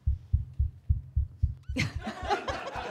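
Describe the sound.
A heartbeat sound effect serves as a contestant's buzzer in a quiz game: a steady run of low, soft thumps at a regular pace, then a burst of laughter and noise breaks in over the beat.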